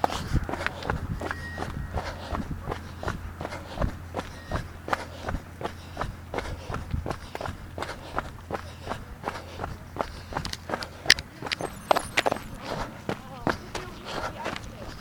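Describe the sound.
Footsteps of a person on a walking break, striking in a steady, even rhythm with many crisp, regular steps throughout. A low, constant hum runs underneath.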